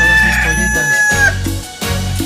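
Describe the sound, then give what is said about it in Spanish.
A rooster crows loudly in one long, sustained call with a steady, bright tone over a low background rumble. “Ah, qué chulo canta mi gallo, poco no, ¿eh? Canta bonitío. Canta precioso.”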